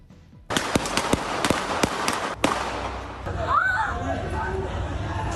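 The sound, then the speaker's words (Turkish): Gunfire from an armed clash between two groups outside an apartment building in Istanbul, caught on a security camera: a rapid burst of many sharp, loud cracks, then one heavier bang, followed by voices over a steady background noise. “İki grup arasında da silahlı çatışma çıktı. Kurşunlar, mermiler havada uçuştu.”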